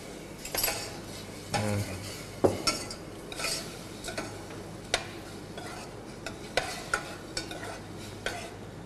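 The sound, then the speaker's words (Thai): Pork stirred with fish sauce in a pan without oil: faint, irregular scrapes and clicks of a utensil against the pan, with a few sharper knocks standing out. “ตอนนี้เนี่ยเราก็ลวนหมูไปเรื่อยๆการลวนแตกต่างกับการผัดการทอดการเจียวอย่างไรการลวนเนี่ยจะใช้ไม่ใช้น้ำมันนะฮะ”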